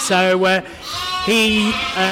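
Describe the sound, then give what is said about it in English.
Sheep bleating: lambing-time ewes on a farm, from a flock of Dorset Horn and Romney breeds, give a few loud, wavering, nasal bleats separated by short pauses. “I'm the one who looks after the sheep, do the lambing, etc. The ewes that we've got lambing at this time of year actually came from Adam Henson's farm, off the TV, off Country File.”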